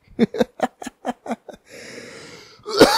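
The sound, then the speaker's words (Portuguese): A lingering cough: a quick, evenly spaced run of short, sharp coughing bursts, then a stretch of raspy, breathy wheezing and one louder final hack. “A única coisa que não foi embora foi a tosse. A tosse tá firme e forte.”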